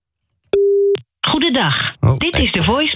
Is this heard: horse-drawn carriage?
no